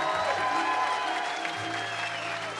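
Audience applause for the String Dusters, a bluegrass band: a steady, dense crowd of clapping that holds at an even, moderate level throughout.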